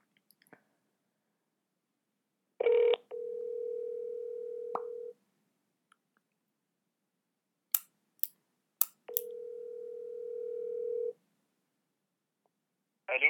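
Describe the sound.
An outgoing telephone call rings over speakerphone: two long, steady mid-pitched ring tones separated by a pause and a few sharp clicks, with no talk.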